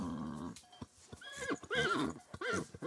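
A mare in heat calls in a mountain pasture: a low, rumbling nicker, then loud, wavering, high-pitched whinnies that rise and fall, with some scattered hoof thuds, all fairly faint overall.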